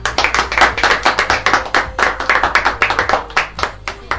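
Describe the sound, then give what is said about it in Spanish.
Applause from a crowd, with many hands clapping quickly and loudly in a dense, steady patter that lasts the whole stretch without pause. “Fuerte el aplauso, vamos.”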